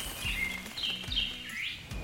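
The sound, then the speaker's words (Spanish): Birds sing in a forest: a few short, high chirps and trills, faint over a steady low background. “Para que las aves sigan cantando y llenando de vida estos templos naturales”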